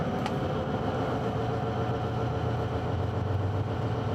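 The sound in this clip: A vehicle engine runs after a shift into sixth gear, giving a steady low drone with a faint higher whine at fairly even loudness, with no talk.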